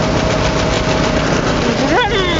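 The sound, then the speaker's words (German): A go-kart engine on the Knatterdrom track in Greven rounds a banked curve, its loud buzzing drone holding steady before the pitch swings sharply up and back down near the end. “Fahrt mal nach Greven zum Knatterdrom. Und dann düst um die Wette mit euren Freundinnen und Freunden. So, Steilkurve.”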